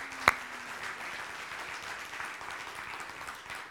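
An audience applauds to welcome guests at a morning church gathering. The clapping is an even, sustained patter throughout, with one sharp click near the start.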